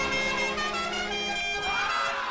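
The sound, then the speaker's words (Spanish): Many car horns honk together in a continuous, dense, overlapping blare, celebrating an event that people are asked to arrive at honking. The horns stay loud from start to finish. “Va a ser obligatorio que tú llegues pitando porque ahora vamos a hacer mucho más ruido que nunca.”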